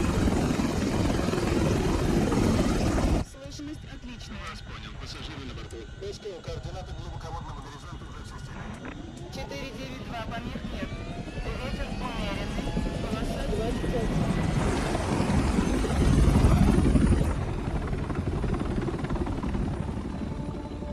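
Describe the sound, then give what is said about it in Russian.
A helicopter comes in to land, its rotor and engine making a steady whirring roar that stays loud throughout and swells a little toward the end. “Садится вертолет.”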